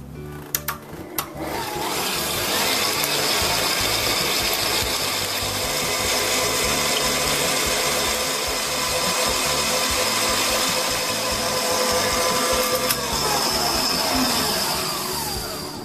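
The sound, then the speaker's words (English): A steady motorised whir runs almost unbroken as a mixture is beaten until fluffy and doubled in size, holding an even level after a brief uneven start. “Now you want to mix this or beat this until they're probably doubled in size or so they're quite fluffy. Probably take about 5 minutes.”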